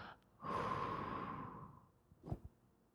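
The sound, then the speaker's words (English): A deep breath in and out, heard as a long, loud breathy rush lasting over a second that slowly fades, followed by a couple of short, soft puffs of air. “Take a deep breath and let it out.”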